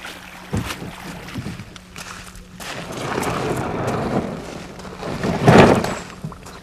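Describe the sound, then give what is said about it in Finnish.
A fishing boat loaded with nets grinds onto the shore with a rough, scraping rumble after a few knocks. The scraping builds steadily and peaks in a louder crunch near the end. “Kun vene karahtaa rantaan”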